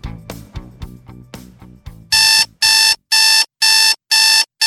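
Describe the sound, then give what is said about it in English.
An alarm clock rings in five loud, shrill electronic bursts at an even pace, preceded by a couple of seconds of softer percussive knocking. “Do you know what that sound is? That's your wake-up call.”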